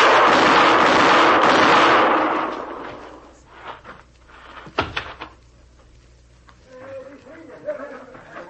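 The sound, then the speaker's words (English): Gunshots in an old western radio-drama showdown: a loud burst of broad noise fades out, then a few sharp cracking reports ring out with quieter clatter between them. “You hit him all three shots. I could see every one of them.”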